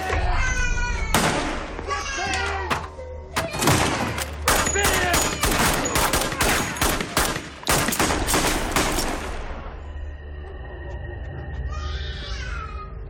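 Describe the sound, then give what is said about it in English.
Gunfire in a film scene: a dense run of many sharp, loud shots in rapid bursts, with voices mixed in. The shooting then stops, leaving a steadier, quieter tone. “That's the shot that hit Graciela.”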